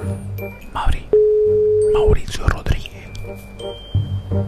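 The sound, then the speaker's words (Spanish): A single long, steady ringback tone of an outgoing phone call that goes unanswered, lasting about a second, with people talking softly around it. “Ay, ojalá les conteste Mauricio Rodríguez. Vamos a ver si nos contesta.”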